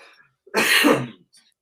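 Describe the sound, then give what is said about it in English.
A man's single harsh cough: one loud, rough burst of about half a second, alone, with near silence before and after. “Hopefully you're taking care of that cough, man.”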